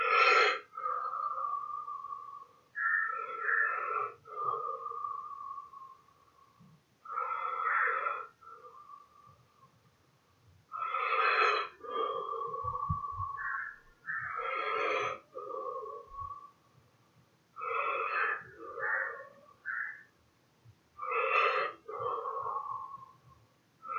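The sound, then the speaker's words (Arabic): Deep, rhythmic Wim Hof method breathing: forceful, slightly wheezy inhales and exhales repeat in many steady cycles, each lasting a couple of seconds with short gaps between. “لما نسوي شهيق الكتفين يطلع فوق شوية الصدر يكبر البطن تكبر زفير الكتفين تنزل البطن تدخل على جوا”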